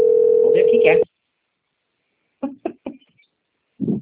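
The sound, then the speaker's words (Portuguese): Ringback tone of an outgoing telephone call: one steady, loud beep lasting about a second, then silence, followed by a few short bursts of speech. “Tá ligando.”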